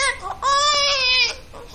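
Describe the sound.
A hungry baby cries in loud, strained wails with a high, wavering pitch. One long sustained wail sits between shorter whimpering bursts.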